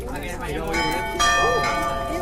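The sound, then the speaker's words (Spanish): Town hall clock bells chiming during a rehearsal on the terrace, with sustained ringing tones and a louder strike about halfway through, under background voices. “se están presentando en la terraza del ayuntamiento todos los preparativos de esas campanadas. Vamos a escuchar el ambiente, porque me dicen que está ahora mismo un ensayo.”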